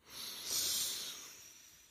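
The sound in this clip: One deep, steady breath drawn in through the nose, a soft airy hiss that swells and then slowly fades over about two seconds, quiet and alone.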